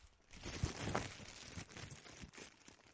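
A paper envelope is torn open by hand, giving faint crinkling and a few rough tearing rips in quick succession, quiet and alone without talk.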